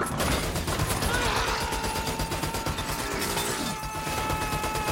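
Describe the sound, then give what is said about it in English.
A machine gun mounted on a helicopter fuselage fires: a dense, unbroken rattle of rapid shots over a loud, constant roar that lasts the whole clip. “Connor reaches a machine gun mounted on the fuselage and opens fire.”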